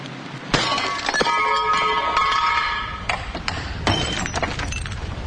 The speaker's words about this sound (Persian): جوون شیشه مسجد رو میشکونه تا عوضش کنه.